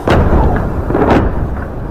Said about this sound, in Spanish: Enseguida, como escucháis, después de esos avisos han llegado las bombas a esa zona de la ciudad